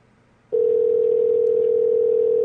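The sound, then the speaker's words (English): Telephone dial tone as a call is placed to a pizza place in Canada. Near-silence cuts sharply into a loud, steady single-pitched tone that holds unbroken to the end. “Yeah, I didn't know what else to do, so I just called a pizza place.”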